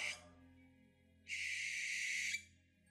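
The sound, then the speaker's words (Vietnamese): An owl screeches: one long, harsh, hissing high-pitched cry, preceded by the short tail end of another at the very start, with quiet background between them and no voices. “Trên tầng không, tiếng cú mèo lại gào lên ba tiếng đầy ai oán.”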